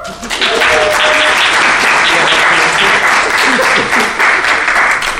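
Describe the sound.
Audience applause welcoming a speaker to the stage, a loud, dense and sustained wash of clapping that swells quickly and holds steady for about five seconds.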